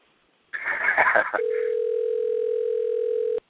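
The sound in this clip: A telephone call on the line: a brief noisy burst gives way to a steady, unbroken electronic phone tone that holds at one pitch for about two seconds, then stops abruptly.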